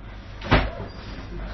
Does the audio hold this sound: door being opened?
yes